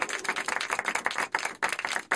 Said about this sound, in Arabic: أحسنت، صفقوا له.